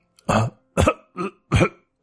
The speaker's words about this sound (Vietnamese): Ho khục khặc bởi sự khó thở do bị bóp cổ.